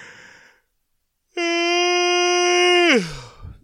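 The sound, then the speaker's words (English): A person gives a loud, voiced yawn, held on a steady tone for about a second and a half, then sliding down in pitch into a breathy finish. “That's a yawn for me. I try to get everything in it that I can.”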